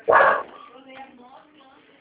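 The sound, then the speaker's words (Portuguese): A dog barks once, loud and short, at the start, followed by quieter voices talking. “É porque o cachorro está latindo”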